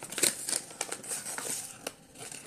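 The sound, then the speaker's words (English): Paper crinkles and tears faintly as an envelope of questions is opened and handled, with several quick rustles and snips in an uneven rhythm. “Oh, wait, we have an envelope of questions that we didn't do.”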